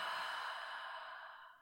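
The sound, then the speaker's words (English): A deep exhale through the open mouth during a guided breathing exercise, a soft, airy rush of breath with no voice that fades gradually over nearly two seconds. “Okay, let's take a nice deep breath in through your nose. Open the mouth, let that breath go.”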